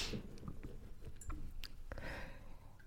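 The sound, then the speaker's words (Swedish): Someone laps coffee from a cup with their tongue, making a few soft, irregular wet licks and smacks that stay faint over low background noise. “Men varför dricker du med tungan? Det är så äckligt. Det är min kopp dessutom. Jag får ju slicka på den om jag vill.”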